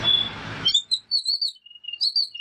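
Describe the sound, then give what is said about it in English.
A babbler in Alice Springs gives many short, high-pitched, whistled chirps after a brief burst of noise at the start. “Oh, it's ear-piercing, the sound of the babbler. I heard it right at the end there where it got really chatty.”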